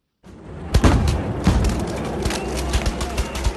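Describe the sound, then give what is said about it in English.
Police firing rubber bullets at looters in Johannesburg: many sharp, loud cracks go off in an irregular volley over a constant background din, with a few heavier thumps early and lighter, quicker shots toward the end. “Police shoot rubber bullets at looters in Johannesburg.”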